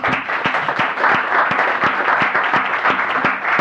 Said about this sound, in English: Please help me welcome all of them to the Senate.